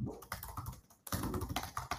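Typing on a computer keyboard: many rapid, uneven key clicks at a low, steady level, with a brief pause partway through and no speech.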